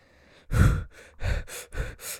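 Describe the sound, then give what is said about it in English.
Deep breaths, a few loud, airy bursts of breathing that rise and fade in an uneven rhythm, with no talk. “Take a deep breath.”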